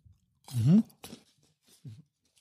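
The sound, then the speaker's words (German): Chewing on Ferrero Rocher chocolates gives a few soft, crunchy bites, with one longer, louder burst near the start and quieter munches after brief pauses. “Wir essen beide ein Rocher.”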